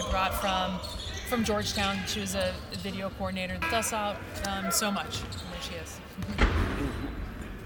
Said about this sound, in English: I should point out that we are sitting courtside at Jadwin, and the men are practicing just a few feet away from us, and that accounts for the noises you're hearing in the background.